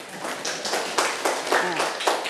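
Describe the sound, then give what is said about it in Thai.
Students clap their hands with classmates during a school science lesson, giving a quick run of sharp, bright claps at a steady rhythm. “ปรบมือกับเพื่อนค่ะ”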